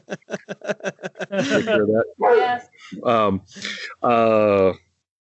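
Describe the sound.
A dog vocalizing on its own: a rapid run of short, sharp yips, then several longer, tonal, whining barks, all loud and close together with short gaps between them.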